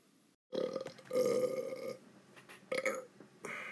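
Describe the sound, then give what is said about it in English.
A long, drawn-out human burp lasting several seconds, low and raspy, with a few surging swells and brief breaks. It is fairly quiet and heard alone. “4 second burp.”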